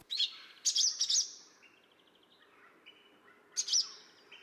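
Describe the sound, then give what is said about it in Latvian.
Barn swallow alarm calls: sharp, high-pitched chirps in a few short clusters, with soft, thin twittering notes trailing between them. “Pašās beigās ir bezdelīgs uztraukums sauciens – cilī,”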